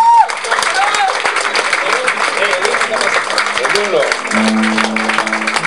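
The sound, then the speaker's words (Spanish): Loud crowd applause at a gathering honoring the Zapatista struggle. Dense, steady clapping runs throughout, with shouting voices mixed in and sustained tones near the end. “Eso, fuerte aplauso, compañeros.”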